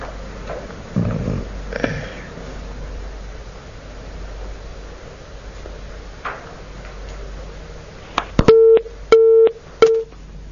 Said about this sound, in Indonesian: Ummu Abdullah terputus sambungan teleponnya